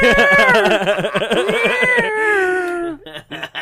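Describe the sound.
A cat gives one long, loud, drawn-out meow with a wavering pitch that sinks slowly over about three seconds, then a few short, rough noises follow.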